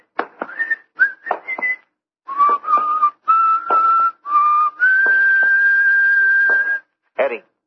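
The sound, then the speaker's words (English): A man whistling a song: a clear, tuneful melody of short bright notes that moves into longer held phrases, ending on one long sustained note. “What's the name of the song that guy is whistling?”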